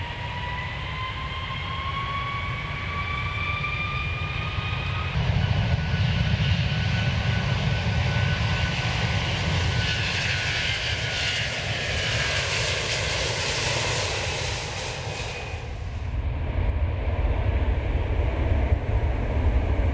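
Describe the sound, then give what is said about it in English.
Airplane engines roar during takeoff, a broad, dense rumble with a thin whine at first, then swelling louder after about five seconds and holding a sustained, even roar to the end. “This is your captain speaking. Flight attendants, please prepare for takeoff.”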